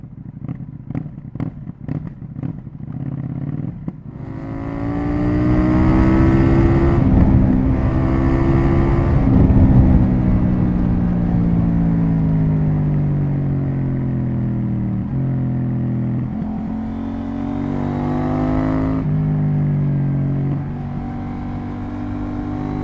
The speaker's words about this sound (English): Parallel twin, I have two examples, starting with KTM's 790. I believe this was a I believe this was a 790 Duke horse with aftermarket exhaust.